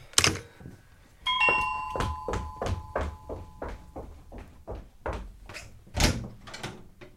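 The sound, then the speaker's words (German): A doorbell chimes at a home, a bright ringing tone that rings out and fades, set among a steady run of soft regular thuds. “es hat geklingelt”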